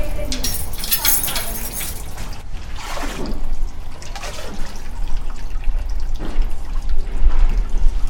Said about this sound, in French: Vous venez la libérer? Oui, je dois ajouter de l'eau.